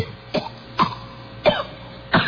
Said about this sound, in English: Now this is a different cough. Oh, it's the coughing until you throw up.